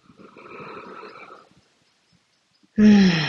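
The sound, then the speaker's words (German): A deep breath drawn into the belly, soft and airy for about a second and a half, followed by silence and then a sudden louder voiced sound at the end. “Tiefe Atemzüge in den Bauch.”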